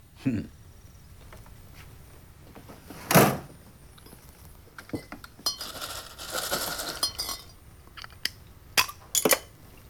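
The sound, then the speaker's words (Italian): A glass Miller Lite beer bottle clinks in a few sharp, bright taps and rattles. One louder clink stands out early, followed by a softer jumble of glassy knocks and two more quick clinks near the end. “Non lo faccio da un sacco di anni, ma ora mi bevo una bottiglia di birra bella gelata. Che birra vuole? Che ne dice di una Miller Lite?”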